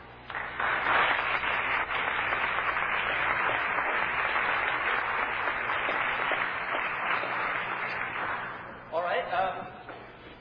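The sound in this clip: Audience applause welcomes the moderator of a debate, a Princeton philosophy professor. A dense wash of clapping rises quickly and holds for about eight seconds, then thins out as a voice begins speaking near the end.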